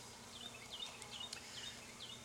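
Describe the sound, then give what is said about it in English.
Honey bees buzz on a hive frame during a beekeeper's inspection, a faint, steady, low droning hum that holds for the whole moment. “And get these bees off of here a little bit.”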